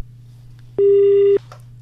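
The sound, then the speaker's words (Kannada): Telephone signal announcing an incoming call: a single steady electronic beep, mid-pitched and lasting over half a second, rising clearly above a low constant hum. “ಮತ್ತೊಂದು ಕರೆ ಬರ್ತಾ ಇದೆ ನೋಡೋಣ.”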